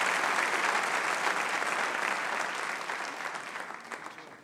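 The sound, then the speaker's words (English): A church audience applauds to welcome a guest speaker, a visiting pastor, to the platform. The clapping is full and steady at first, then gradually tapers off over the last seconds. “So can we give Pastor Willie a warm hand of welcome as he comes to minister?”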